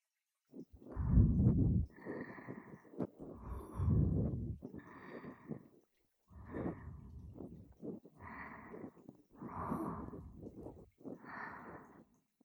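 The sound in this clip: Soft ASMR ear-cleaning sounds from inside the ear: a few irregular bursts of close, breathy scraping and rustling, separated by short quiet gaps.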